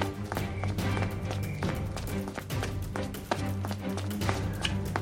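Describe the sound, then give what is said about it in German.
Footsteps of four dwarves running past with buckets: a quick patter of many steps and taps under a steady musical bed. “An euch vorbei spurten vier Zwerge, alle mit Eimern bewaffnet.”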